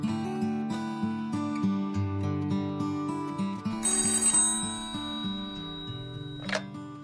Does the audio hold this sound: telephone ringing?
yes